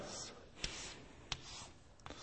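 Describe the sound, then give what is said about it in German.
A pen writes the number 10 by hand, very faint, with three short scratchy strokes spaced across the moment. “wenn wir die 10 jetzt mal so schreiben”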